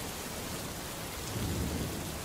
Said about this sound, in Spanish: Por la puerta entreabierta de la iglesia penetraba la luz de los relámpagos, que hacía brillar la plata de los candelabros del altar. A ratos se colaba alguna ráfaga del viento huracanado que soplaba afuera.